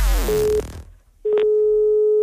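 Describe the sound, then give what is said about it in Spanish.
An outgoing telephone call gives its ringing tone: a steady, mid-pitched electronic tone, heard first as a short beep and then as a longer sustained one after a pause, with no voices. “Ahora San Bernardino va a llamar a Mercedes haciéndose pasar por un juez”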